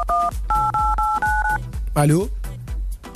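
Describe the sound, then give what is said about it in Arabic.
Telephone keypad tones dialing a number: a quick run of several short, steady beeps, each with a soft click, followed by a brief burst of voice. “عاود اطلب هكا النمرو مرة أخرى.”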